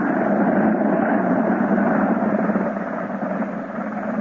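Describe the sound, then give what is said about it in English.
Aircraft engine drone during a quick three-point landing: a steady, loud, rumbling roar that carries throughout and eases off slightly toward the end. “Quick landing, fellas. Nice three-point landing, too.”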